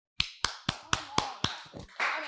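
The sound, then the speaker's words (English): Six sharp hand claps in a steady, even rhythm, loud and with no talk, followed by a few softer irregular claps and a denser burst of clapping at the end. “Yeah. Applause.”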